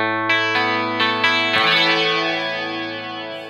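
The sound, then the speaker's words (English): Guitar played through a Dimension C chorus effect unit: a few plucked attacks, then a raked chord that blooms into a wide, shimmering wash and slowly rings out. “So I'll use the Dimension C. Yeah. Just at the end of the phrase.”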